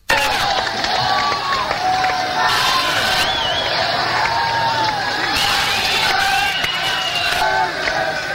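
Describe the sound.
A concert crowd in Brixton, England, in March 1983 cheers and shouts to celebrate U2 bassist Adam Clayton's birthday. A loud, dense, unbroken roar of voices fills the whole stretch, with high whoops rising above it.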